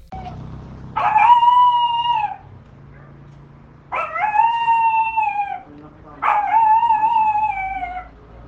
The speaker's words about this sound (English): That's a dog. At least I can get that one.